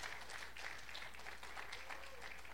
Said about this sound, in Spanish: Dele un aplauso al Señor por eso.